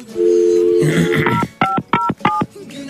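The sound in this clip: Telephone keypad tones as a number is dialed: a few short, bright dual-tone beeps in quick, even succession.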